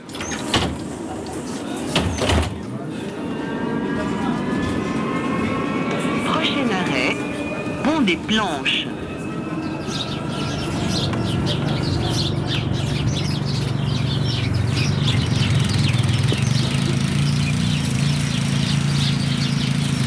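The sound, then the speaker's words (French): Sliding doors and electric motor of a trolleybus in a Lyon suburb: a door clatter, then a rising whine over a steady running rumble, with a recorded stop announcement spoken over it. “il y a des sons, même dans la vie quotidienne, par exemple dans ce trolleybus à Vaux-en-Velin, en banlieue de Lyon.”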